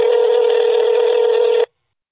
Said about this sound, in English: the sound that you hear when you are making a call to someone else and their phone is ringing and you're waiting for them to answer. Nowadays, that typically sounds something like this.